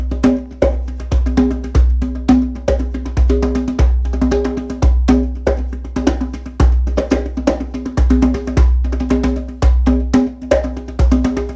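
Deep bass tones from a conga drum with a thick head, struck many times in a steady, even rhythm. Each loud, punchy hit is low and controlled, with little ringing overtone.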